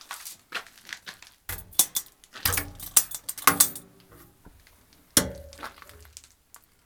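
Metallic clanks and knocks as the hopper of a coal-fired boiler is opened: several sharp bangs separated by lighter rattling and scraping, with a firm clang near the end.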